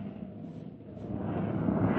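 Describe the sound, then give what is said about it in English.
An aircraft lands near a camp, its engines a low, rumbling drone that grows gradually louder toward the end. “Sit tight, we're landing. The sound of our arrival must have aroused the camp.”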